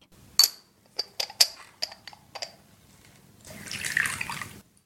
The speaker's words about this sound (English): When I hear the sound of clicking finials followed by the Arabian gahwa pouring into a finial, it reminds me of the family gathering every Friday.